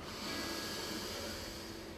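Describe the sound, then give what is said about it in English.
A deep inhale of breath, heard as a faint, steady, airy hiss that holds evenly for the whole clip with nothing else around it. “Deep inhale.”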